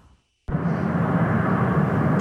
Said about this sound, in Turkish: Liderleri taşıyan uçaklar tek tek Ankara'ya indi.